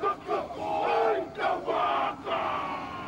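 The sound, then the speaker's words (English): Maori haka war chant performed as a welcome for a visiting Chinese delegation in New Zealand: a group of voices chants and shouts loudly in rhythmic, forceful phrases with brief gaps between bursts. “And like Bill Clinton, the Chinese president welcoming the chance to face the haka and experience a taste of the South Pacific.”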